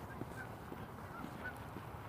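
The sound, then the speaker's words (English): Geese honk faintly, a few thin nasal calls rising above a steady low background rumble. “Oh, geese.”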